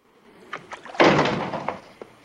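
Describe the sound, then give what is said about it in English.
A door slams shut as someone steps in from a blizzard: one loud, full-bodied bang with a brief rumbling tail, with a few softer knocks before and after it. “Slam the door.”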